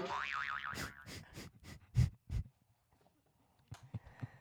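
Comedy boing effect from a soundboard: a springy, wobbling twang whose pitch wavers up and down, followed by a series of short, punchy thumps and a few quieter knocks.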